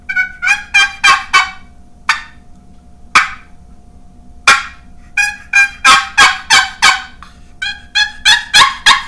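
Loud turkey gobbles repeat in rhythmic runs: a quick series of calls, a few widely spaced ones, then another rapid string of gobbles. No other sound competes with them.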